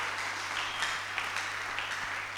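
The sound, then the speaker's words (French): An audience applauds during a church service. The claps are faint and scattered, with a few sharper hits standing out over a steady low hum. “Acclamez pour la sœur. Acclamez maintenant pour Dieu. Très fort.”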